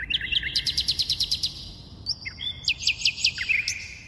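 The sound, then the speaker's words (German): A nightingale sings alone, a rapid run of many high, evenly spaced chirping notes, a brief gap, then a second phrase of varied whistles and trills at moderate loudness. “Wir hörten hier nämlich eine Nachtigall.”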